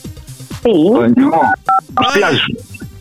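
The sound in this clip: Telephone keypad buttons pressed, producing a couple of short, steady dial-tone beeps in quick succession, sounding under and between loud, animated talking voices.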